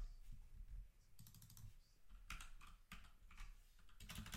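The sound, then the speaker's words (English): Quiet typing on a computer keyboard as a name is entered for translation. Several uneven bursts of soft, rapid key clicks are separated by brief pauses. “I'm going to type this dude's name into Google Translate, and I'll just see how they enunciate it.”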